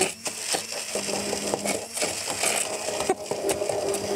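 A blender purées food in a kitchen, giving a loud, steady grinding whir with irregular crunching knocks throughout, and no voices.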